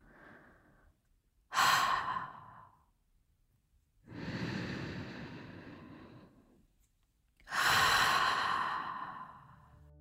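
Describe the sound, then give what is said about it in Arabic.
Three deep breaths, each a long, airy rush of air separated by quiet gaps, the last one drawn out as a final exhale; no talking. “ناخد 3 مرات نفس عميق محلنا على وترتنا الخاصة، وآخر زفير منريح من التم.”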